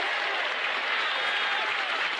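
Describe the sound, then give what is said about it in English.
A large outdoor crowd applauds and cheers during Martin Luther King's "I Have a Dream" speech, forming a continuous, even roar of clapping and voices with no breaks or clear peaks. “Because the audience then has a natural break. I mean, that's what you're cheering for.”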